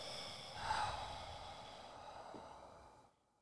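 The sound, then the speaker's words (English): A slow, deep breath drawn in through the nose and then released during a guided relaxation exercise, soft and airy, swelling briefly before tapering off into silence. “take a deep breath in through your nose. Exhaling and relaxing,”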